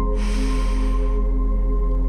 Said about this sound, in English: Again, breathe in this confidence.